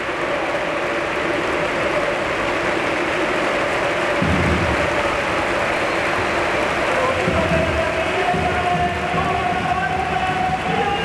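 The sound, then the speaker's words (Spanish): Dense, sustained crowd noise fills the Villamarín football stadium as fans send off Isco on his substitution. The steady applause-like roar runs throughout, with a commentator talking over it. “Ojo porque se va a marchar Isco, va a entrar Giovanni Lo Celso. No hay manera de que estén en el campo los dos. Eso el ingeniero lo tiene muy claro. No. Mira, así despide el público a Isco.”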